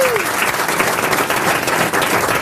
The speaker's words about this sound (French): À mes côtés, j'ai Michel Boujna, les grosses têtes, le public qui vous acclame déjà.